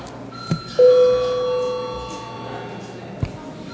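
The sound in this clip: A bell rings to call a parliamentary session to order: a single sustained electronic-sounding tone that sets in sharply and fades slowly over a few seconds, with a couple of faint clicks before and after.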